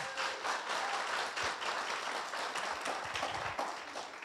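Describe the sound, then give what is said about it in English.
Church audience applause for first-time guests: many hands clapping in a steady, moderately loud patter that runs evenly for about four seconds. “So would you help me welcome our first-time guest by putting your hands together?”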